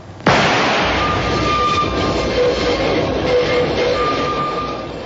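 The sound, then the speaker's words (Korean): Rumbling roar heard inside a moving subway train, with thin metallic squealing tones drifting above the steady rattle, loud and continuous throughout and easing slightly at the end. “지하철 안.”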